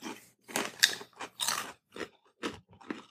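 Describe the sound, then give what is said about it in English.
Crunching of rippled barbecue-flavoured potato chips being bitten and chewed: many sharp, crackly crunches in uneven bursts with short quiet gaps, fairly loud and with no talk over them. “It's like I see a potato chip and I'm like, yes, I will eat that. They're ripply.”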